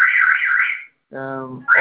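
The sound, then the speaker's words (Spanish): A shop's alarm rings while staff try and fail to switch it off: a warbling electronic tone for under a second, a brief silence, then a steadier buzzing tone that gives way to another burst of sound. “El motivo de mi llamada es que tengo que desactivar la alarma, pero no puedo desactivarla.”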